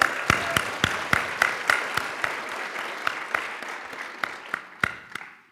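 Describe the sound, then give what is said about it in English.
Applause for a speaker at a JavaScript lightning-talk event: sharp, evenly spaced claps ring out over a fainter wash of clapping and keep going at a steady rhythm throughout. “All right, let's hear it for Eva. Woo!”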